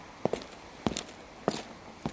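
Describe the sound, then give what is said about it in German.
Footsteps on a walk of a few paces toward the middle chamber of the Kleinmachnow canal lock. Four evenly spaced, fairly soft steps land at a steady walking pace. “Bevor Sie sich jetzt in Details vertiefen, gehen wir aber noch ein paar Schritte nach links zur Mittelkammer.”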